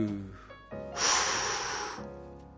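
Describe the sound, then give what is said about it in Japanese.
A deep breath drawn in by someone sitting upright with the pelvis raised. It is a loud, airy rush lasting about a second, fading out at the end. “まっすぐ座って、はい、深呼吸。”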